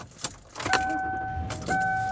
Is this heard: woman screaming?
no